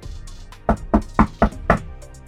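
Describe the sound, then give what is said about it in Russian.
Knocking on an apartment door: five firm knocks in an even, steady rhythm, with no voices. “В дверь квартиры постучались.”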